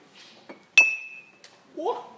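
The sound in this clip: Glasses clinking in a toast: one bright clink with a high ringing tone that fades over about half a second, set among faint soft sounds and followed by a voice.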